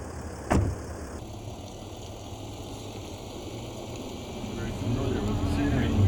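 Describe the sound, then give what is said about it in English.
A Mercedes SUV drives off, its engine giving a steady low rumble that grows louder toward the end, after a brief thump near the start. “So to start with, they sign out an SUV and head off on the first drive.”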